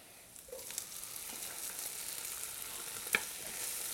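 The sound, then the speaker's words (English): Garlic sautés in a pan with a faint, steady sizzle that crackles throughout, and a single sharper click of stirring comes near the end. “We're gonna add the garlic. That goes in. Saute that a second.”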